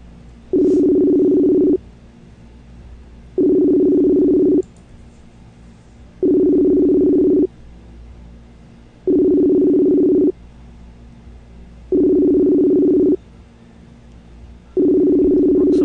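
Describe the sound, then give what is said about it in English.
A telephone ringback tone while a call goes out to two people at once: six evenly spaced low buzzing tone bursts, each about a second long, separated by quiet gaps, loud and alone. “Let's give these guys a call. I'm trying something new. I'm going to call both of them at one time.”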